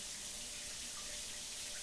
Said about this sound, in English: Hey, why don't you join me in the shower?